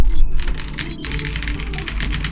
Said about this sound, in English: This is a little reenactment. I went down there and said, what teams have something at stake? That's what I just typed.